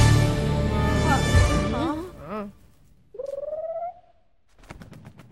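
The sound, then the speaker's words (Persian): Voices come first, then a bird gives a single short pigeon-like coo with a pulsing, throaty quality before fading. “پرنده بیش نبود.”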